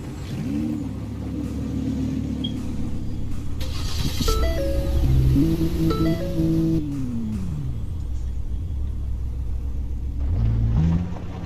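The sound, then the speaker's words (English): A car engine in a Roblox driving video game: a synthetic droning hum that jumps up in pitch in several gear-like steps, slides back down, then rises again near the end. “How do I change my gear shift back? Help. I don't know how to change my gear shift back. Press Y to drive.”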